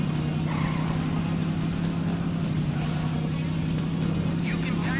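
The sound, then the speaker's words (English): Tires squeal and an engine roars in the Daytona USA racing game on the Sega Saturn. The sound is a loud, steady, dense roar with a strong low hum and no break for the whole stretch. “I really did enjoy that Daytona USA. You're burning up the tires.”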